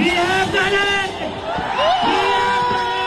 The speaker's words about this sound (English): And that's the sound of demonstrators cheering after the minister posted his resignation letter.